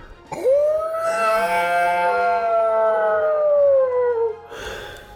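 A white wolf's howl swoops upward at the start, then holds a long, clear, sustained tone for about four seconds that sinks slowly before breaking off, followed by a brief noisy burst.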